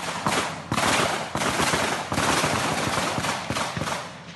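Gunfire erupts during an exchange of shots between federal police and attackers at an Indigenous village in the Amazon: many loud, sharp cracks in rapid, uneven bursts with no pause.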